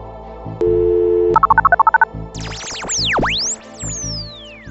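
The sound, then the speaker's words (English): A telephone number being dialed: a steady tone, then a quick run of short touch-tone beeps at varying pitches, followed by swooping, whistling electronic chirps that sweep up and down over a low background. “Let's dial those numbers then.”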